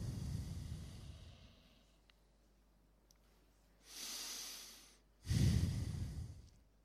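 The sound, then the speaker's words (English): Slow, audible breathing during a seated meditation: a soft, airy breath followed by a fuller, louder breath, with no talking. “Couple of breaths.”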